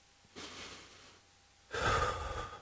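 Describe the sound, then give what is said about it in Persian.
A deep breath, taken on request by someone who has just drunk water: a softer, breathy rush of air followed after a pause by a louder, longer, rougher breath, with no talk. “حالا یه نفس عمیق بکش”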